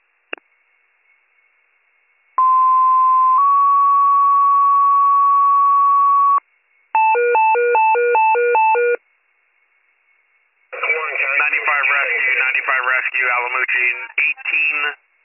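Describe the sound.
Emergency dispatch radio paging tones for a rescue squad: a steady held tone drops to a slightly lower tone for several seconds, then a rapid series of alternating stepped tones, followed by a voice speaking over the radio.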